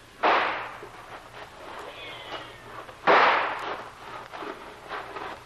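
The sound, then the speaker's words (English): Two gunshots fired as a signal to charge, each a sharp loud crack with a trailing rumble, about three seconds apart, over faint crackling background noise. “You signal a charge. Two fast shots and we all go.”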